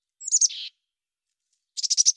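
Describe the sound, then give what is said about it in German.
Tits call in high, thin chirps: two rapid sequences of several short notes separated by a silent pause of about a second, with the second series longer than the first. “Forscher haben an Meisen geforscht und haben bei Meisen den ersten Beleg für einen Satzbau im Tierreich zeigen können, sodass also diese kleinen Meisen, wie wir sie hier auch haben, in Sätzen sprechen.”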